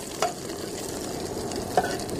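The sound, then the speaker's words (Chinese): Sugar sizzles with a steady hiss as it is stir-fried in a pan until caramel-colored, with two brief scraping clicks of the stirring. “糖下去有什么作用呢？可以给它上色。炒成焦糖色以后，”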